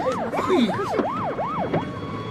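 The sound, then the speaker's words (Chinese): Police car siren wailing loudly and alone, a rapid, steady series of rising and falling sweeps repeating about five times. “这下好了，警察来了。”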